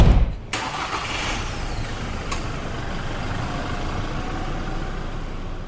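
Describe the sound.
A diesel vehicle driving through city streets after leaving a dealership, giving a steady engine rumble and road noise throughout, with a brief louder hiss at the very start.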